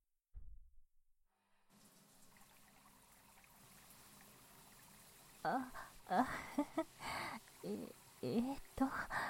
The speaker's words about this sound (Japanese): はい、きれいに洗えましたね。では、流しますね。